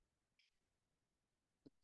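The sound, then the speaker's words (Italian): Two soft, faint clicks change presentation slides. The first is light and high, and a sharper, fuller click follows over a second later, with quiet stillness around them. “Devo cliccare. Clicca sulle slide. Sto cliccando.”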